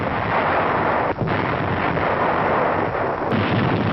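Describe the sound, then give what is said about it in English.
Heavy naval guns of a large invasion fleet fire a barrage on Pacific shore defenses, heard as a dense, continuous loud roar of blasts with no clearly separate shots and no voices. “Strategic airfields are the objectives as the great fleet's guns open up.”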